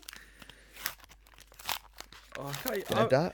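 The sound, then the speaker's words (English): Crinkly tearing and crumpling as a pack taken from a tin is ripped open, then people start talking over the rustle. “Oh, he's ripping already.”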